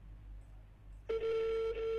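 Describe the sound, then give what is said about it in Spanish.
A telephone tone from a call placed on speakerphone starts suddenly about halfway through after low hum, then holds steady and level to the end with one brief dip; no one speaks. “Estamos llamando a Richard Alfonso para que corrobore nomás si está él en forma telemática.”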